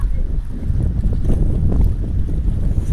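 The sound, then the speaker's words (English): Steady wind blowing by the sea, a continuous low buffeting rumble with no distinct gusts or breaks, heard alone without voices. “It is windy though, and it always is a big problem when trying to record the sea.”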